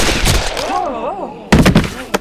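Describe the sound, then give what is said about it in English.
Gunshots fired in quick succession during a close-range showdown: loud, sharp percussive bursts that crack out suddenly after a quieter wavering passage, with one final hard report at the end. “Shot him two times. The shots so close together they sounded as one, leaving two holes in the center of the kid's chest.”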